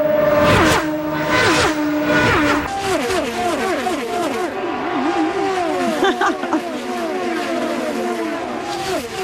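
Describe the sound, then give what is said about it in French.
Race cars accelerate and rev at an auto race in Markham, north of Toronto. Several loud engine notes climb and drop in overlapping sweeps as gears change, filling the whole stretch without pause. “C'est la course automobile qui s'en vient dans la grande région de Toronto, à Markham”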